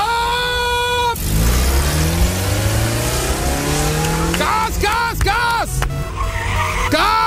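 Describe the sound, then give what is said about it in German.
Racing cars rev and skid in a motorsport setting: a loud, sustained engine roar, then several sharp tire squeals that sweep up and down in pitch in the second half. “1Live O-Ton-Charts-Archiv geguckt, was wir da so gefunden haben in Sachen Motorsport, weil es ist ja am Ende Motorsport. Und vielleicht klingt's in Sonsbeck dann gleich so.”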